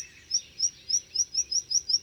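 Bird song opening its strophe with a string of short, simple, repeated high chirps, evenly spaced at a quick, steady rhythm and fairly faint, with no voices.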